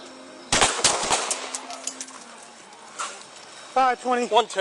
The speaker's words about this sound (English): Shots fired.